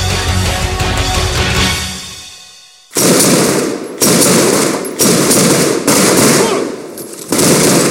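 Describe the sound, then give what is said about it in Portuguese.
Rifle gunfire in a video game: a fading rumble gives way to several loud bursts of rapid automatic fire, each a dense crackling stream cut off by a brief gap. “Tá bem atirando com meu fuzil, fica fácil, né?”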